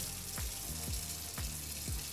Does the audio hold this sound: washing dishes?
yes